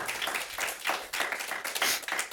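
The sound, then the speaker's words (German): Audience applause welcoming three guests at a German-language evening event. Many hands clap in a dense, continuous patter with brief swells of louder claps. “für einen Applaus bitte.”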